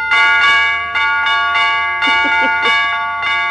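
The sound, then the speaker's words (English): A broken doorbell chime is rung in an uneven string of many bright, ringing bell tones with long sustained overtones, heard alone with no talk. “What did that doorbell say? It's broken”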